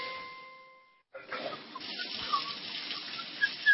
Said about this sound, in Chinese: 看见有那个水龙头不关的，哗哗流的，心疼啊！